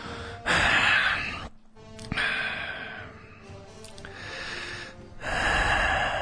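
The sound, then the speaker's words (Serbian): Heavy breathing into a microphone: a few long, loud, noisy breaths in and out, separated by short pauses, with no talking. “Kako dobro dišem”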